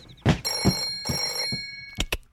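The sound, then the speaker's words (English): A telephone ringing at a clubhouse, two long metallic bell rings with a sustained tonal shimmer between sharp clattering bursts, followed by a couple of quick knocks, with no talking. “Clubhouse phone? Clubhouse phone? Huh? Oh, Clubhouse phone, I got it.”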